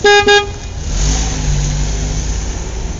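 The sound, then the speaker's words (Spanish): Car horns honking in heavy street traffic: two quick loud toots at the start, followed by a steady mid-pitched engine drone and revving rumble of passing vehicles. “Para colmo de males, otra vez hay mucho tránsito.”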